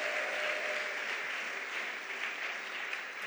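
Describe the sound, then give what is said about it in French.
A church audience applauds and acclaims during a celebration service, with soft, steady clapping sustained evenly throughout. “Est-ce qu'on peut acclamer notre Seigneur et Sauveur Jésus-Christ?”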